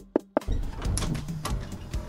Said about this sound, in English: While they were working, there was a knock on the door.